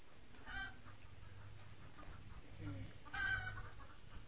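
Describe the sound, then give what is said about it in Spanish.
Hens cluck in a farmyard corral: a few faint, short clucks rise over a low, steady background hum. “Oía el cacareo de las gallinas y me daban ganas de ir a recoger los huevos antes de que se los comieran los conejos.”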